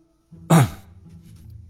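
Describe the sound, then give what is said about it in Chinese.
A light cough or throat-clearing: one short, raspy burst that peaks sharply and then trails off into a low, quiet rumble. “罗任心中暗自好笑，面上不动声色，轻咳了两声。”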